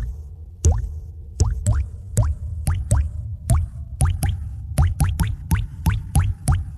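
Dripping water from a plumbing leak, used as a radio ad effect: many resonant plops, each with a quick upward-bending pitch, falling in an uneven rhythm over a low steady bed.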